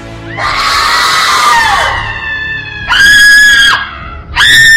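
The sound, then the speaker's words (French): A crowd screaming and crying with children shouting, heard as three loud, high, wailing screams: one long cry that sags in pitch, then two shorter piercing bursts. “On a entendu des cris à Rama, des pleurs et des grandes lamentations.”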